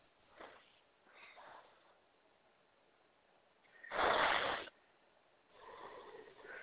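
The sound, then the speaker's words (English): Deep breaths taken during a guided clearing exercise, a few slow airy inhales and exhales. Most are faint, with one louder, rushing breath in the middle. “And now take 3 deep breaths.”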